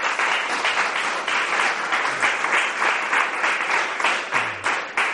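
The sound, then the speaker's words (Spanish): Audience applause at a talk on photography: loud, full clapping from a crowd with a pulsing, wave-like swell in level that keeps going strongly to the end. “O sea que os dejo con él y un fuerte aplauso.”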